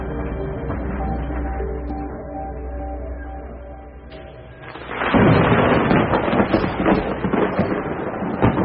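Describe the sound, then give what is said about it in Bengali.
A loud thunderclap from a lightning strike breaks in with a sudden crack after soft sustained tones fade. It turns into a heavy crackling, rumbling roar that continues to the end. “অন্যদিকে কলকাতায় বাজ পড়ার প্রচণ্ড শব্দে সাবুর ঘুম ভেঙে গেল।”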